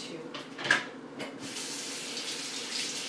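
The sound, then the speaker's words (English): Water streams from a kitchen tap while a spoon is rinsed during cooking. A steady hiss of flow carries a brief louder splash early on before settling back to an even rush. “to rinse out this spoon”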